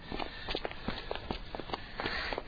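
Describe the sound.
Footsteps of someone walking for exercise, many quick, evenly spaced steps landing in a steady rhythm at moderate loudness, with no talk over them.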